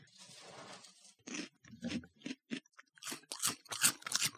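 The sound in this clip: Crunchy chewing of Oreo cereal pieces: a long crackly bite, then many short, irregular crunches of varying loudness, heard alone.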